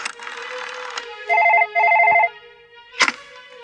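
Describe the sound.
A telephone rings after a call is dialed: two trilling ring bursts follow in quick succession, then a sharp click. A buzzy tone comes before the rings.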